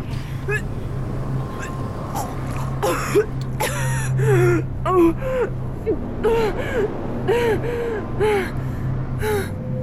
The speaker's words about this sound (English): Breathe in through your nose. That's it.